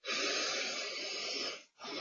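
Slow, audible breathing in and out during a German guided healing meditation: one long airy breath lasting about a second and a half, a brief pause, then the next breath beginning.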